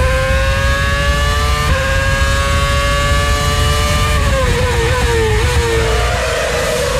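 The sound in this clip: Formula 1 cars race at the 2010 Turkish Grand Prix in Istanbul, their engines a loud, continuous high-pitched whine that holds steady, then steps down in pitch with shifts before climbing again.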